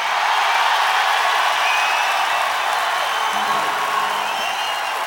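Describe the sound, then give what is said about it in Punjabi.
A concert audience roars and cheers when asked to make noise, a steady, loud wall of crowd sound that holds without pause throughout. “ਤਿੰਨਾਂ ਟਰੱਕਾਂ 'ਚ ਲੱਦ ਕੇ ਸਮਾਨ ਉਹ ਲਿਆ ਆ ਸਾਊਂਡ ਦਾ, ਉਹਦੇ ਨਾਲੋਂ ਜ਼ਿਆਦਾ ਤੁਹਾਡੀ ਆਵਾਜ਼ ਹੈ। ਇੱਕ ਵਾਰੀ ਪਾ ਕੇ ਦਿਖਾ ਲਿਓ ਰੌਲਾ।”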